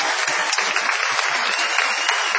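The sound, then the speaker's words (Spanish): Audience applauding comedian Luis Piedrahita, a thin, steady patter of clapping from a crowd that stays even in level for the short stretch. “Vamos a aplaudir especialmente a Luis Piedrahita. Sí, por favor. Bravo, Luis.”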